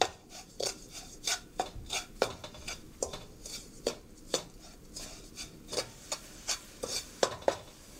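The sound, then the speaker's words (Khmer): A spoon stirs sugar so it dissolves, scraping and lightly clinking in a steady rhythm of many quiet strokes, with no talking. “កូរវាយើងកូរស្កររបស់យើងឲ្យវារលាយបន្តិច”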